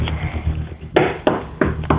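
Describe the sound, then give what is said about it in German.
Knuckles knocking on a kitchen table: four sharp, fairly loud knocks in an uneven rhythm, coming after a short stretch of low background rumble. “Und das beweist du uns einmal bitte, indem du in die Küche gehst und auf den Tisch klopfst.”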